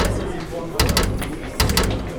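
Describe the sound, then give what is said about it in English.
A locked door is tried and rattled, one of a row of doors being checked: two short bursts of metallic clattering, with people talking over the background. “Nope. It's locked. It's not working! Try the next one!”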